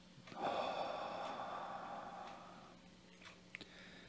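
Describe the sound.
A slow, deep inhale, drawn as a breathing exercise during a guided meditation and prayer, comes as a soft, steady rush of air lasting about two seconds, followed by a few faint small clicks and breathy sounds.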